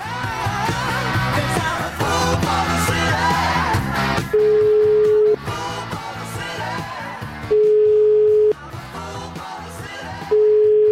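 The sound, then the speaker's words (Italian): Ringback tone of a telephone call being placed: three steady one-second beeps at a single constant pitch, separated by pauses, sounding over loud background music. “Io una telefonatina alle 20:25, ora italiana, Milano, la Zanzara, gliela farei.”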